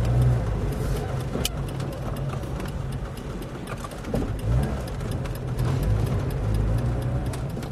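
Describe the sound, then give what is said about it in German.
An old, nearly broken-down car drives along a town's barbed-wire perimeter fence, its engine a continuous low rumble mixed with road noise, with faint rattles and a few brief knocks. “fährt uns mit seinem alten, fast kaputten Wagen am Stacheldrahtzaun der Stadt entlang”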